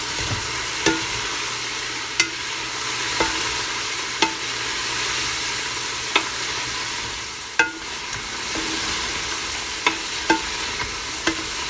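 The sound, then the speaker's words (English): Vegetables and meat stirred in a sizzling pan: a steady frying hiss with sharp utensil scrapes and clinks recurring roughly once a second, with no talking. “we're going to give the vegetables and the meat a stir”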